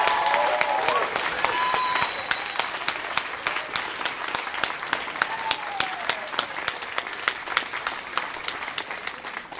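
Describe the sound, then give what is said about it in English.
Audience applause follows a live story performance, a full, sustained roar of clapping that soon settles into a steady, rhythmic beat of many hands, loud and unbroken for nearly ten seconds. “Give it up for Kevin Allison. That was a fantastic story.”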